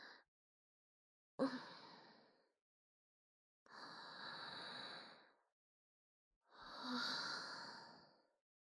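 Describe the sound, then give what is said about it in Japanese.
A person takes slow, deep breaths, quiet and airy, with about three full breaths separated by silences and a partial breath at the start. “深呼吸する。”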